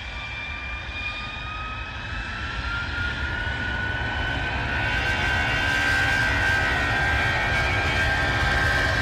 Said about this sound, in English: Delta Hotel 555, acknowledging takeoff clearance.